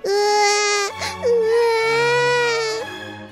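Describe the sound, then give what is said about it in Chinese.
A baby princess in a fairy tale bursts into frightened crying: two long, loud, tonal wails split by a brief catch of breath, with nothing else alongside. “公主一下子被吓哭了。”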